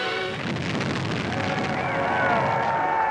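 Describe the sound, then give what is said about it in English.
A demolition blast set off by Interior Secretary Harold Ickes to clear old slum houses for a 1935 housing project: a sustained, broad rumbling roar that holds steady and swells slightly toward the end. “Harold Ickes, then Secretary of the Interior, personally sets off the initial blast.”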